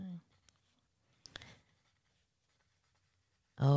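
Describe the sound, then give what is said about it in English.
A pen writes on paper in faint, brief scratching strokes in a quiet gap, with a voice talking at the start and end. “I'm like, ooh, I'm going to talk about something. That's me writing.”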